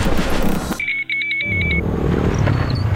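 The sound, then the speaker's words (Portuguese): A motorcycle engine droning past, its rough noise broken midway by a short run of high electronic beeps before the engine sound returns and carries on. “Ouviu essa moto? Deve ser um entregador.”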